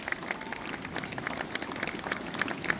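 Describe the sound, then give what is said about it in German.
Audience applause follows an angel-themed performance with wings, lanterns and dresses at an Advent calendar event in Uelzen. Many hands clap in a dense, steady patter, with a few sharper claps standing out. “Es gibt doch bestimmt noch mal einen extra Applaus, weil das jeden Abend engelsgleich und wunderschön ist.”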